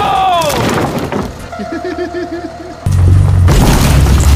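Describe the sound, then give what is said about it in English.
A house is blown apart in a video game with booming explosions. An excited shout comes at the start, then quieter tonal game effects, and finally a sudden loud rumbling blast that carries on to the end. “All right, let's destroy this house once and for all. 3, 2, 1, destroy!”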